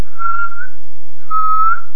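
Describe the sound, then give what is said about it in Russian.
Inward whistling through pursed lips while drawing air in: two steady mid-high tones, each lasting roughly half a second, separated by a brief pause, clear and alone. “Но свистеть надо не просто, а свистеть в себя. Как обычный свист, губы в трубочку, но воздух не выдуваем, а втягиваем.”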